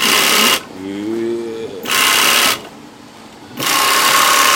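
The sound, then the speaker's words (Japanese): A 1950s American sewing machine built only for hemming, sewing a chain stitch: loud, fast whirring that runs in three separate bursts with short pauses between them. “これは1950年代のアメリカのミシンですね。裾上げ専用で、”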